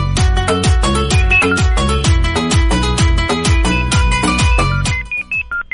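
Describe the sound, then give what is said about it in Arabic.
Loud musical phone ringtone announcing an incoming call: a steady, repeating rhythmic beat with heavy bass hits and bright melodic tones, breaking into a few short separate notes just before it ends. “وش هالصوت؟ تيتو تيتو. الظاهر اتصال”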